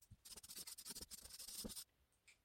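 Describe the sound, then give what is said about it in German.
Scratchy pen-on-paper writing as large letters go across the top of a page: a dense run of quick rubbing strokes lasting under two seconds, then a couple of faint taps. “Ich schreibe das hier noch ganz groß oben drüber.”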